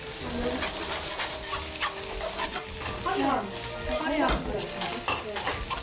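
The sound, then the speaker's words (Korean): Tofu stir-frying in a pan with perilla oil: a steady, loud sizzle runs throughout, broken by repeated scraping and stirring strokes of a utensil against the pan. “그래서 이제 두부를 이렇게 해갖고 줬어요. 네. 이거 볶고 있어봐.”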